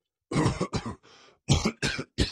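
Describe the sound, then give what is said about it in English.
A man coughs uncontrollably, with a voice imitating a fit of harsh, rasping coughs. The coughs come in a quick series of loud bursts, and a fainter, breathier one falls in the middle. “The king was coughing uncontrollably.”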